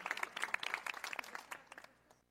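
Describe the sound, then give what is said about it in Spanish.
Applause from a crowd: a dense patter of many hands clapping, fairly faint, that thins out and fades away toward the end. “Bravo. Un aplauso hasta el cielo para San Agustín”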